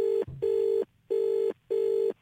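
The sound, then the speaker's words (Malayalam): Ringback tone of an outgoing telephone call: a steady mid-pitched tone sounding in four even bursts with short silent gaps between them, heard alone. “നമുക്ക് അൻസമ്മ സിസ്റ്ററിനെ ഒന്ന് വിളിച്ചു നോക്കാം.”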